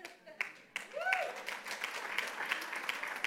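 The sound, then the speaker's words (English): A church audience bursts into applause after a brief quiet start. Clapping stays fairly full to the end, with a voice rising briefly over it early on. “Now, you're clapping, but I'm so happy.”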